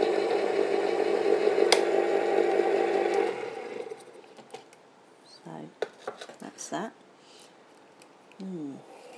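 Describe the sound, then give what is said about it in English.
A posh electric tin opener whirs steadily for about four seconds as it opens a tin of condensed milk, then stops. A few light clicks and clatters follow, and a voice speaks near the end. “So I'm going to open up the tin of condensed milk with my posh little electric tin opener.”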